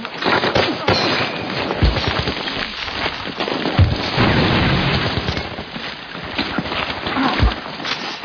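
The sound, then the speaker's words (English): Bursts of gunfire and heavy booms in a battle, loud and dense throughout, with a few sharp low blasts standing out from the steady crackle of shots. “Turn that gun! Got you, cover and fire!”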